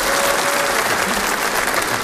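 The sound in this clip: An audience applauds loudly: dense, continuous clapping from many hands, steady and full throughout, with no pauses.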